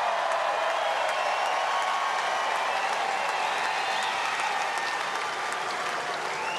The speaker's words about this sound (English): Once again, let's hear it for Carlos Alcaraz, everyone, one more time.